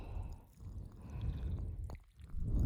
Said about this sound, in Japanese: もう一度シャワーを当てて、こっちも終わりましたよ。